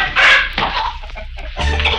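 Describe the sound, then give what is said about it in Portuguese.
Chickens clucking loudly inside a hen house, a dense, agitated chorus of overlapping squawks and clucks that runs without a break. “escutaram um grande barulho vindo do galpão das galinhas”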